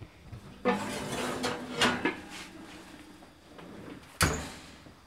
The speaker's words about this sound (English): I now have 2 very thick pot holders, and I'm going to pull that Dutch oven out of the oven.